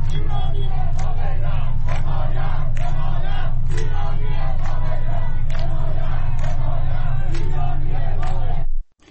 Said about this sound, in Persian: ویدیوهایی نیز از تجمع در منطقه 10 تهران منتشر شده است.